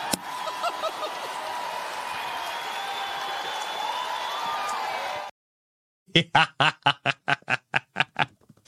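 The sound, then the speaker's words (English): An audience roaring at a Turning Point Action event: a loud, sustained wash of crowd cheering, then after a brief silence a run of evenly spaced, rhythmic bursts like unison clapping. “Oh, man. It's so great being in the audience at that. That was at the Turning Point Actions at Con earlier this summer. Oh, man, the room was roaring.”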